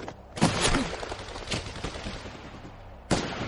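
Gunfire in a World War II battle scene from a war film, with several sharp shots and irregular bursts of rapid fire over a rumbling background.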